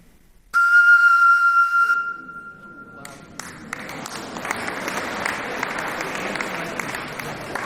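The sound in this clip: A steady, clear whistling tone is made by blowing across the mouth of a bottle partly filled with water. It holds for over a second, then stops, and applause from an audience follows and continues.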